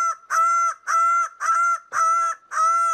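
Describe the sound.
Greater bird of paradise, Paradisaea apoda, calling: a steady, evenly spaced series of loud, nasal, harmonic honking notes, each held briefly with short gaps between, heard alone.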